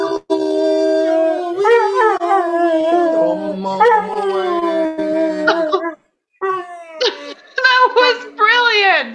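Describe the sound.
A Catahoula Leopard Dog howls along to a song, giving long, wavering, fairly loud howls with a singing voice alongside. After a brief pause, shorter rising yelps and whines follow.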